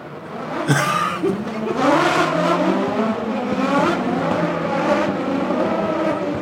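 Cars racing at a race track, their engines revving in a continuous, loud roar whose tones sweep up and down in pitch across the whole clip.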